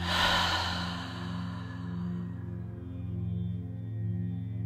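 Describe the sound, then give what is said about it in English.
One breathy exhale through an open mouth during a yoga breathing exercise, a soft sigh at the start that fades quickly, then a steady low humming musical drone with no voices. “Take an inhale through the nose. Open the mouth and empty out.”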